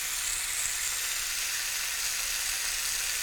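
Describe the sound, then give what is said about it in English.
Onion frying in a little oil for a fried bologna sandwich gives a steady, bright sizzle, an even hissing crackle that holds without break throughout. “Okay, onion's perfect. A little bit of color, nice, delicious. Cooking in a little bit of oil.”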